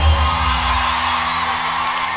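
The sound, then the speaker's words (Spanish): Loud crowd cheering and whooping, a dense, sustained roar of many voices that holds steady for the whole stretch without a break. “fuerte, fuertísimo el aplauso.”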